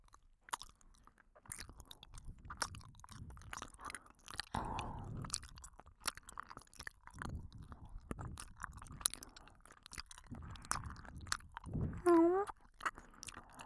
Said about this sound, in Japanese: それじゃあグミいただきます。